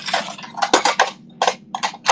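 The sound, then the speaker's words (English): Bowl and dishes clinking in a kitchen while getting set to mix a sauce of oil and hot sauce: a rapid, irregular series of bright, high clatters and clanks over a low steady hum. “Mix in bowl. I need a bowl.”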